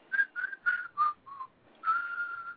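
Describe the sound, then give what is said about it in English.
A person whistles five short, clear notes that step gently lower in pitch, then holds one longer sustained note. The whistling is alone, with no talk. “He started whistling.”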